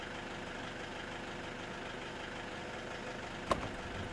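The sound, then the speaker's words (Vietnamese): An ambulance's engine runs as it arrives, a faint and steady low rumble with one sharp click near the end. “Có xe rồi, có xe rồi. Có xe cứu thương kìa.”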